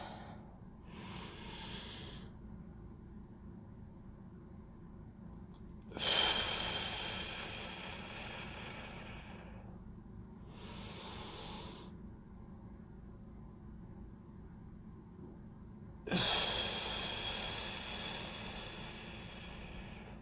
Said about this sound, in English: 4, 7, 8 breaths, and we begin again.